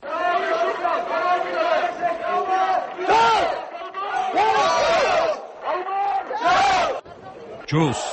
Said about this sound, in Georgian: ეს შეძახილია, რომელსაც მიტინგზე მისული ადამიანი ვერაფრით აარიდებს თავს.